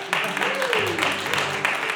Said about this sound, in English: And yeah, you can applaud that.